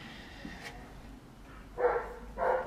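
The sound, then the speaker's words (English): Dog barking in a neighbouring garden, heard as two short, fairly faint bursts in the final second, over a low steady background. “that's not Salvo barking in the background, if you can hear it. That's a dog from a different garden.”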